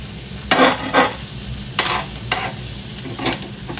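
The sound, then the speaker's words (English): Sizzling of an egg frying in a pan as it is flipped over for an over-medium cook, with several brief, louder bursts of crackling spitting above a steady low hiss. “time to flip the egg over. Well, at least for me. I like the egg over medium.”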